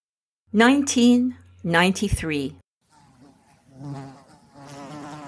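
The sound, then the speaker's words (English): A fly buzzing, a low, steady droning hum in two loud bursts, then fainter, wavering buzzing afterward. “A fly was buzzing persistently around the nose of Warden Stacy.”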